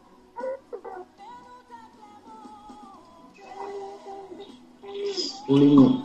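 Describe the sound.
A child crying in the background at someone's home during an online lesson: thin, wavering wails drift in and out, rising to a louder, strained cry near the end.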